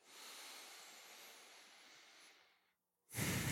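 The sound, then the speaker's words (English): A deep breath taken in during a breathing exercise, with hands wrapped around the ribs: a long, steady, airy inhale lasting over two seconds fades into a brief silence, then a sudden louder burst of breath follows. “and then have some breath”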